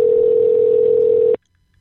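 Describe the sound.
A telephone dial tone on a phone used to place a Star 69 call-back: one steady, unbroken tone held for over a second, then cut off abruptly into near silence.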